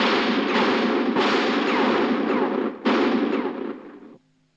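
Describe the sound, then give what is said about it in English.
Blank rounds fired by the Home Guard during a night exercise: a few loud, sharp reports, each spilling into a long rumbling wash that runs into the next, then cutting off abruptly near the end. “Only blanks. The Home Guard issued. Childish attempt to frighten us.”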